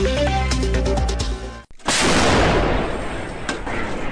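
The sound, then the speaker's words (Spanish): Artillery fire from Ukrainian forces near Bakhmut: one heavy blast breaks in, followed by a long, loud, rumbling roll that slowly fades, with a fainter thud near the end. “Incesante fuego de artillería de las fuerzas ucranianas contra las posiciones del ejército ruso para cubrir a sus tropas de infantería en la región de Bakhmut.”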